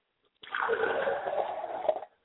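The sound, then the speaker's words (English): Liquid poured out as a libation during an ancestral ceremony: one steady, continuous splashing pour that lasts under two seconds and then stops abruptly. “We acknowledge him in pouring libations to our higher self, Ashe.”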